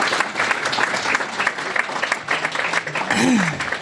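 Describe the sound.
Audience applause at a Commonwealth Club of California meeting after a presentation: dense, sustained clapping at a steady, fairly loud level throughout.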